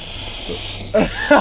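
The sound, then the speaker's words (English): A man's voice imitates loud, tornado-like breathing as a rushing, hissing exhale, then breaks off into brief talk. “That's how he breathed. No. It's like a tornado every time he breathed.”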